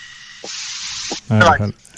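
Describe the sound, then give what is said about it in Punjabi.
A loud, steady hissing whistle blast lasts a little over a second and rushes like escaping steam. It is followed by a brief burst of voice. “ਸੀਟੀ ਵੱਜ ਗਈ ਮੈਨੂੰ ਲੱਗਦਾ।”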